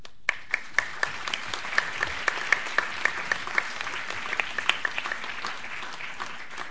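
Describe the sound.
Audience applause welcoming the speakers at an evening discussion event, a steady wash of clapping with many distinct sharp claps standing out throughout.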